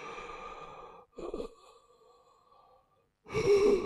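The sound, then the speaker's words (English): A voice imitates a man's labored breathing: a few drawn-out, rasping, throaty breaths with short gaps between them, the last one louder and harsher, with no words spoken. “You could still hear him breathe, but it wasn't labored like that. He was just going,”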